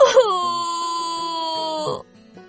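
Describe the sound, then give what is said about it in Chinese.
A cartoon squirrel character cries loudly, voiced by a performer: one long, high, sustained wailing sob that holds steady for about two seconds, then breaks off into quiet. “小问号忍不住大哭了起来。 哎呀，小松鼠你别哭，我去帮你找鹏鹏。”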